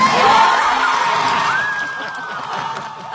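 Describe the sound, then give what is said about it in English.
After a song, an audience cheers wildly and applauds in a dense, loud wash of crowd noise that slowly eases off. “It was, as you can hear, the audience went wild, and it was cleverly done, I must say.”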